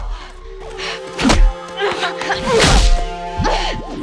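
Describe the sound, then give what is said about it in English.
Kicks land in a fight in the mud, a woman striking a ninja in the stomach and face: a few heavy, dull thumps and whacks over a busy, tonal background. “She kicks the ninja in the stomach and the face.”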